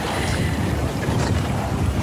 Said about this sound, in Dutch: geluid zijn van een klein zeilbootje dat in de haven ligt en het waait. Ja. En het klapperen van de lijnen in de mast.